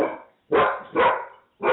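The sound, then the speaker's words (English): Dogs barking in four separate bursts: one fading at the start, then three more spaced about half a second apart, each full and fairly loud, with silence between. “The dogs are still here, and the jungle critters are around, so you'll just have to forgive us.”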